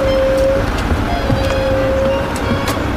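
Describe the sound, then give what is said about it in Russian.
A bus pulls up, with a steady engine rumble and a thin, sustained whine running through it. Faint, scattered hisses and taps sit on top of an even, unbroken noise bed. “Автобус подъезжает.”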